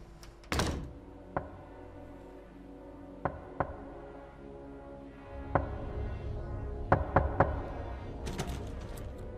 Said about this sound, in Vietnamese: Tiếng gõ cửa vang vọng trong đêm làm cho hắn cũng chẳng thể nào mà ngủ nổi.